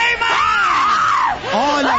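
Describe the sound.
A person screams loudly during a pastor's deliverance session, a continuous strained wail that swoops up and down in pitch for two seconds with hardly a break.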